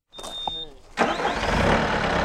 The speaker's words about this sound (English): A skid steer has just fired up at North Boundary Park. It looks like a small tractor with a shovel on the front.